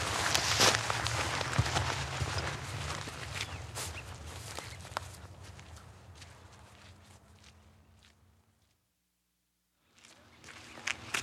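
Footsteps of people walking outdoors back toward the woods during an evening of badger watching: many steady, crunching steps that gradually fade out, a short silence, then steps resume.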